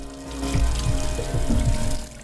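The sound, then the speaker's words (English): Water from a running tap splashes as hands are rinsed beneath it, a steady rushing stream with soft irregular splashes throughout, with no voices. “Hands being rinsed under a running tap.”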